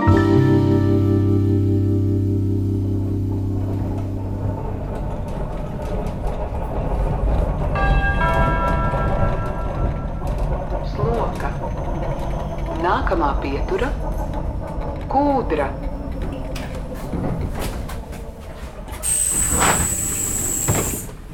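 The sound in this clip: A train at Sloka railway station in Jurmala: a sustained tonal blare opens, then steady rumbling and clanking follow, and a bright, high-pitched squeal near the end closes it.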